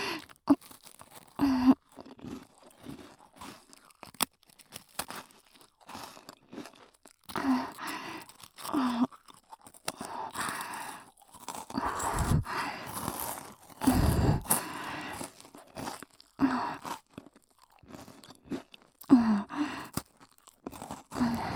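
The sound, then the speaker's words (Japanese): Sweet, crispy food is crunched and chewed in many irregular crisp bites and munches, some sharper and louder than others, separated by short quiet gaps. “じゃあこれも音だけ聞かせちゃおう。甘くてサクサクで美味しい。”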